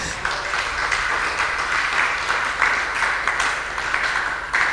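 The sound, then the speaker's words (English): Audience clapping during a sermon, a steady wash of applause at moderate loudness with a few sharper bursts, continuing evenly for several seconds without voices. “Oh, somebody must be clapping.”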